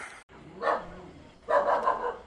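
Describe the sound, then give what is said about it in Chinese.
A dog barks at night in a mountain village after flooding: a short bark, then a longer, louder bout of barking, over a low, steady background hum. “一声狗叫，一束微光，晚上9点，三河村到了。”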